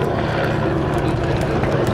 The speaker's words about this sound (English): The Aston Martin Hart Racing number 27 car rumbles by in its blue THOR colours.